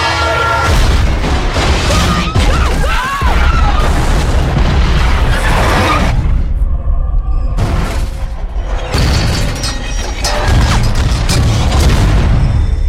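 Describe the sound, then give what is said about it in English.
An eastbound freight train derailing makes a loud, continuous crashing roar of heavy booms and grinding metal, with a couple of brief lulls before the din surges again. “An eastbound freighter derailed.”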